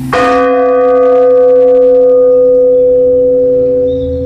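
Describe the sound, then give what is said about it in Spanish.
A single church bell struck once, a slow toll its ringers call a lament, booms out loud and then hangs in the air, its rich ringing overtones decaying slowly over several seconds with no other sound. “y eso lo llaman los lamentos de las campanas. Porque según das, tocas, pum, y queda el sonido ahí. En el aire, quedas en el aire.”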